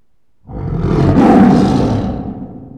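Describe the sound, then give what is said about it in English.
A tiger gives a single loud, deep roar that swells in under a second and fades over about two seconds, heard alone. “T. Tiger. It's a tiger.”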